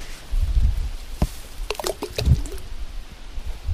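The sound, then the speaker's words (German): Plum-like fruits drop from a tree on a lakeside bank into the lake water beside a boat, making a few soft, splashy plops with scattered wet dripping between them. “Man fährt mit dem Boot jetzt unter diesen Baum, der direkt an der Böschung wächst, und kann ihn dann so reinplumpsen lassen. Das ist diese Plumpstechnik. Die hört sich so an.”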